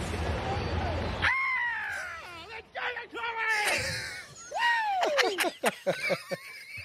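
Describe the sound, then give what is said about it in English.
A young crow cawing: a series of harsh, loud caws, each falling in pitch, repeated many times over a noisy background. “I reckon that's definitely an adolescent crow.”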